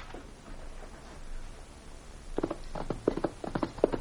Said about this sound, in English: Get along there, you ornery mule. Get up there.